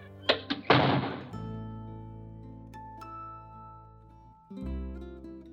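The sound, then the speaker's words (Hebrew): A door opening: three quick wooden thunks, the last running into a longer rattling burst, then quieter sustained tones with a soft thump near the end. “האיש פתח את הדלת ואליהו הנביא נכנס לחדר.”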